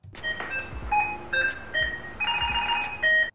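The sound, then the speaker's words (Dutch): Ringing alert from a Samsung SmartTag 2 tracker, a chain of short, bright electronic chime tones in several quick bursts that step between different pitches, clear and fairly loud with no other sounds. “Want we hoorden namelijk de nieuwe Samsung Smart Tag 2.”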